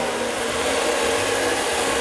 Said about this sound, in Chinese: 正常它在搅拌的时候都是会产生温度的，因为这种东西通常要很高的转速才打 动